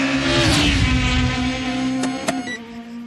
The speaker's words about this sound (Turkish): Beyaz bir taksi. Saatte 306 kilometre ile gidiyor.